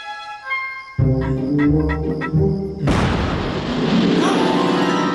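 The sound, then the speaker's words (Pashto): A booming explosion effect in a story about a magic lamp breaks in suddenly after about three seconds of low tonal music, then rolls on as a broad, rumbling roar to the end. “ناڅاپه یوه چاودنه وشوه عمر پورته وکتل او یو غار یې ولید چې له لاندې یې لوګي ختل”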